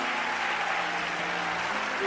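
A church audience at a First Baptist service applauding to welcome a singer: steady, dense clapping from many hands, fairly soft and even, with faint sustained tones beneath.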